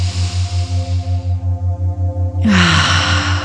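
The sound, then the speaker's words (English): Breathing during a guided lie-down relaxation, a soft breathy hiss fading away and then a louder rushing breath, both over a steady, pulsing low drone. “take a nice deep breath in through the nose and out through the mouth. And again.”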